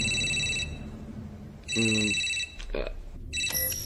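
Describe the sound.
A telephone rings in a few bursts of bright electronic trilling separated by short pauses, loud against a low background hum.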